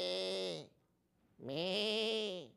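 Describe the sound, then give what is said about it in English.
Sheep bleating: two loud, wavering, nasal bleats with a short pause between them. “how exciting is to be sitting there in the middle of the field and just having a sheep going by,”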